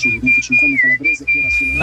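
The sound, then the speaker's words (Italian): A person whistles a song melody. The thin, high whistled line holds mostly steady, dips briefly in pitch and returns, over a fuller, low-pitched background. “c'è qualcuno anche che la fischia”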